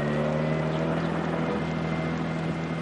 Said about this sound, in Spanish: El coche arranca y se marchan.